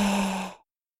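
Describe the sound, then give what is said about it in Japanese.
A single sighing breath during a guided relaxation exercise, a soft airy exhale that stops abruptly after about half a second, leaving silence. “吸って、吐いて、”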